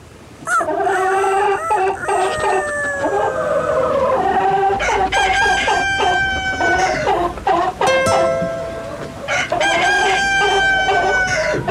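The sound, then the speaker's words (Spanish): A rooster crows several times in a row, each crow a loud, long, strained call separated by short pauses, with no talk. “Gallo, gallo, gallito.”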